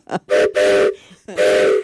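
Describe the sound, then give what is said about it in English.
A handheld train-style whistle is blown during a fundraiser's match update, giving a few loud, breathy, chord-like blasts. The longer blasts are held for about half a second, with short gaps between them. “Where's my whistle? Oh, there it is.”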